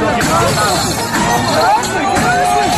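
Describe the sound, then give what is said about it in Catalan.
Crowd noise from street riots at Barcelona's 2021 Mercè festival in Plaça Espanya, after a mass outdoor drinking gathering of about 20,000 people; a loud, dense babble of many voices that stays steady throughout. “És el so d'aquell moment, el 2021, en què després d'un macrobotellot amb unes 20.000 persones també hi va haver baralles, agressions i danys a mobiliari de la plaça Espanya.”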